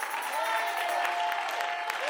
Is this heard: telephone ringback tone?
no